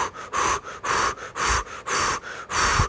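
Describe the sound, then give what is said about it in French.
Deep, deliberate breathing from an anxious person trying to calm down, made of several even in-and-out breaths, each a loud airy hiss separated by short pauses in a steady rhythm. “Faut juste que je respire. OK, je vais respirer, là.”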